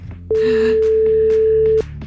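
A telephone rings on an outgoing call: a single long, steady, mid-pitched ringback tone of about a second and a half, over a low, continuous background bed.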